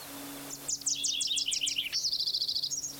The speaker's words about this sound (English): 20, Wilson's warbler, God bless it.